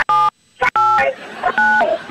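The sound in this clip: Telephone keypad tones from keys pressed on a phone menu: a few short, loud electronic beeps at differing pitches, separated by brief gaps and some noisy clatter.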